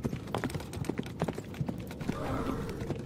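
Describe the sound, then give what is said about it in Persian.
A horse trots with a steady clip-clop of hooves. Many quick, sharp hoof beats fall in an even rhythm from start to finish, fairly loud and with no voices. “صدا یورتمه اسبه.”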